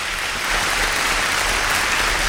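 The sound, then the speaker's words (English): Applause fills the short stretch as a steady, dense wash of clapping that swells slightly after the start and holds at an even level, with no voices over it. “She said you can have a little bit of applause. So that's it. That's all the applause you can have.”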